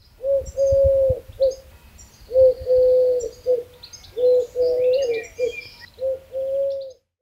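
A dove cooing in a steady series of soft, low, hollow calls separated by short pauses, while other birds chirp faintly at a higher pitch in the background.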